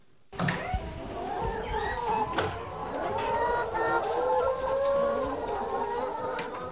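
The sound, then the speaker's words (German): A crowded flock of 120 white-and-brown feathered hens in a farm henhouse near Kiel clucks and cackles, with overlapping calls rising and falling in a continuous chorus. “Jörg Ketelsen die Tür zum Hühnerstall. Eine Herde von 120 weißbraun gefiederten Tieren drängt sich auf engem Raum.”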